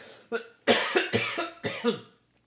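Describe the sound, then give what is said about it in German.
A person coughs after choking on a piece of nut. Several harsh, fairly quiet coughs come in a fast, uneven burst, then stop, with no talking. “ich habe mich wirklich nur verschluckt hatte irgendwie ein Stück Nuss noch irgendwie, hatte von einer Nuss gekaut.”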